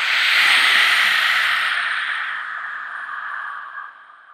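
Loud throat breathing in a yoga exercise, with air rasping at the back of the throat while the nose and mouth serve only as passages: one long, hoarse, hissing breath that is strong at first and slowly fades away at the end.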